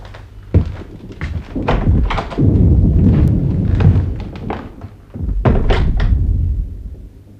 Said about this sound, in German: Dieser Kanonendonner.